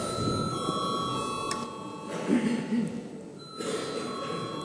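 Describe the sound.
A parliamentary division bell rings to call members to a vote, a continuous electric ring with a steady, sustained metallic tone over low background noise.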